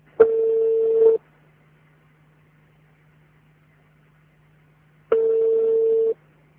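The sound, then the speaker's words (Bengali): Two long, steady telephone tones, each lasting about a second, separated by roughly four seconds of near silence over a faint low hum, as a phone call is being placed and connected. “আমরা ফোনে তাকে connect করার চেষ্টা করছি।”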